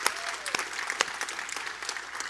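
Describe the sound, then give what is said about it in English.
Audience applause at a women's church gathering: a dense, steady patter of clapping with many sharp individual claps standing out across the whole stretch. “for all the ladies that were here, let's give it a round of applause if you had a good time.”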